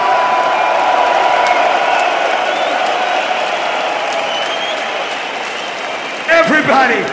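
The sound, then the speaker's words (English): A crowd at a hard bass show cheers and applauds in a dense, sustained roar of clapping and shouting that holds steady throughout, with a brief voice breaking through near the end. “I want you all to put your hands up and make some motherfucking noise for yourself. Give it up, hard bass!”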